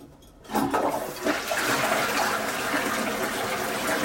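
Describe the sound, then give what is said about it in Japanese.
A toilet flushes: after a brief quiet start, a loud, sustained gushing rush of water surges in and keeps pouring steadily to the end, with no voices over it. “早く流そう。よいしょ。はい、流します。”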